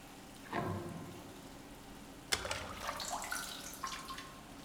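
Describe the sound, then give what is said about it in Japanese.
Water is poured over a person's head during hair washing: a soft pour early on, then a sharper splash followed by faint trickling and dripping. “最初は頭から洗っていくわよ。”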